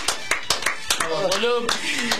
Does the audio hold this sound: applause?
yes